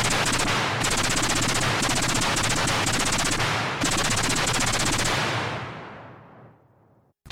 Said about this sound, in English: So, where were we? Machine guns. Right, machine guns. Shall we? Certainly.